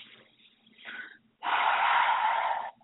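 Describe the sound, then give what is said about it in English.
A deep breath is drawn in during a guided relaxation exercise. Soft breath noise comes first, then one long, steady, fairly loud inhale lasting just over a second, with no talk over it. “Deep breath in.”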